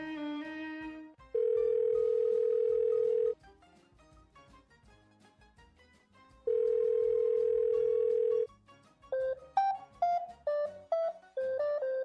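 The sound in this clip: Telephone line tone after a call is hung up: two long, steady, loud tone bursts separated by a quiet gap, followed by a run of short beeps stepping between different pitches.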